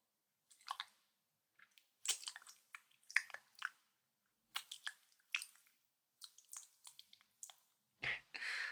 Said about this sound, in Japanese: 少し強く噛んでも。